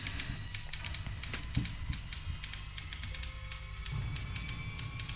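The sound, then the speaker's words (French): A typewriter clatters without pause: many sharp, irregular key clicks at a fairly faint level over a low, steady hum. “C'est comme si nous étions attirés contre notre volonté par le cliquetis de la machine à écrire, qui continuait sans relâche.”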